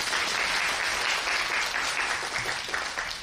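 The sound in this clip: Audience applause welcoming the speaker at an evening Buddhist studies lecture: a dense, steady wash of clapping from many people throughout, with no talk over it.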